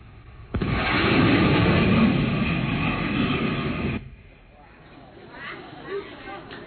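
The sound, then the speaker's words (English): A fast pass over water sets off a sudden loud shock wave boom that swells into a heavy jet-like roar, holds for about three seconds, then cuts off abruptly. A faint voice follows. “If you watch closely, you'll see also the pressure wave pushing against the water as it comes by. So let's watch it. Here we go. And it will make a noise. Sound man, let's crank it up. As it goes by, you'll hear the shock wave. Ba-boom, as it goes by.”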